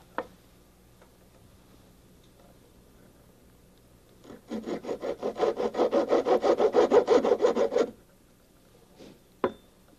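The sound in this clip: Hand sawing partway into a single wooden piece so it looks like two bricks: a steady run of many fast rasping strokes lasting about four seconds, with an isolated click before and after.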